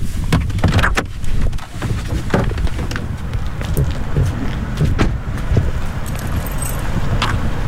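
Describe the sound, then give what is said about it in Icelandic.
Someone steps out of a car on the steps outside Grafarvogur church, with a series of sharp clicks, knocks and rustles, and a jangle like keys, over a steady bed of outdoor noise. No voices. “Ég ætla núna að stíga út í bílnum og kynna mér aðstæðurnar aðeins betur.”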